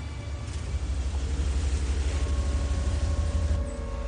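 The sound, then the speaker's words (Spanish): Low engine rumble of a car pulling away in a cemetery and creeping slowly behind a man on foot, a steady drone that grows a little louder after the first half second and then holds even. “Sam arranca el coche para seguirle lentamente.”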